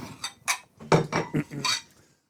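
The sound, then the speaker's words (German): Plates clink and rattle as they are handed out for a serving of Christmas stollen: several sharp, ringing knocks of crockery, quick and irregular, then stopping. “Ich gebe erstmal ein paar Tellerchen aus, damit wir auch den Stollen genießen können.”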